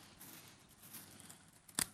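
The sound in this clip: A single sharp scissor snip cuts a plastic refrigerator bag in half, coming near the end after a quiet, low stretch.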